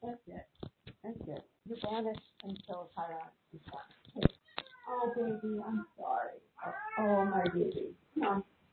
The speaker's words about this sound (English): Sorry, I have to take both cats out.